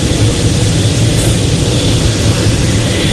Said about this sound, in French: le bruit des hélices et des gaz qui sont en train d'être mis